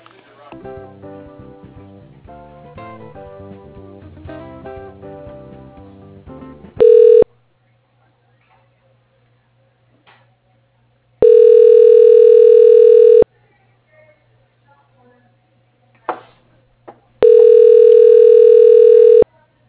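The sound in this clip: Ringback tones as a telephone call is being transferred: a short burst, then two long, steady, loud tones at one pitch, separated by silences.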